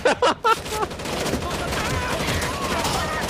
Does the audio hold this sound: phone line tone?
no

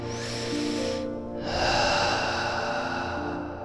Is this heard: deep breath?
yes

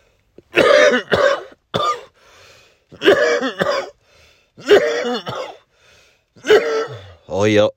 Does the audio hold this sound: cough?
yes

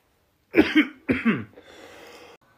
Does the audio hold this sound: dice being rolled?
no

